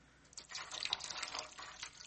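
Hot water poured into a footbath for soaking sore feet: a soft, steady gushing rush lasting about two seconds, fairly faint and with no voices.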